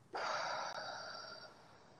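A single long, soft breath during a guided breathing exercise, heard as a faint, steady airy hiss lasting well over a second, with no talking.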